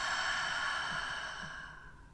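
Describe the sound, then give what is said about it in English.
A slow, deep breath taken during a guided breathing exercise: one long, airy sound, heard alone, that holds steady and then gradually fades away. “So with that being said, take a nice deep breath in and out.”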